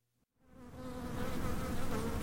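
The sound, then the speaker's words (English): Honeybees buzz while gathering nectar and pollen from almond flowers in an almond orchard. After a brief silence the dense, steady hum swells in and holds loud and continuous to the end. “That's the sound of honeybees gathering nectar and pollen from almond flowers to feed their colony's young.”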